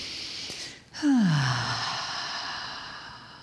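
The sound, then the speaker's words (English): A deep breath taken in through the nose and let out through the mouth: a faint inhale, then a long breathy exhale opening with a brief voiced sigh that falls in pitch before fading into soft hiss. “Take a nice full breath in through your nose, let it out through your mouth.”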